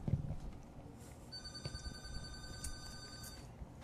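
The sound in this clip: A telephone rings with an incoming call, a steady electronic tone with bright high overtones lasting about two seconds, fairly quiet over low background noise.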